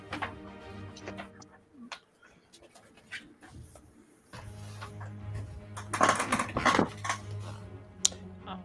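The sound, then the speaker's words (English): Dice tumbling across a table as a game master rolls during a tabletop role-playing game, a rattling burst of quick clicks and clatter that swells in the latter half over a steady low hum. “I hate when the DM rolls dice.”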